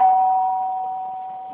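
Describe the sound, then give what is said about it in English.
A house doorbell rings once, a single steady electronic tone that slowly fades away. “Let's try doorbell, first of all.”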